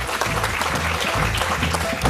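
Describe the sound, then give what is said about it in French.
An audience applauds a guest's correct answer on a quiz segment, giving a steady, dense clatter of clapping that holds at an even level throughout. “Une bonne réponse de notre invité et je vous propose qu'on l'applaudisse pendant que moi je vous lance les informations.”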